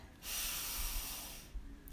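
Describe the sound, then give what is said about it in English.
One slow, deep inhale during a guided relaxation exercise, a soft, steady, breathy hiss lasting a little over a second. “take a deep breath in”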